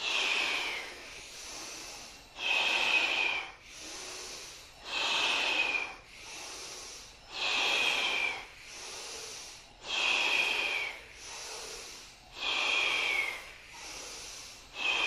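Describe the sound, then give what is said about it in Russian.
Forceful, hissing breaths from a kriya meditation breathing exercise repeat in a steady cycle, with strong rushing bursts of air alternating with softer, quieter breaths, and no talking. “Мощнее вдох, меньше напряжения.”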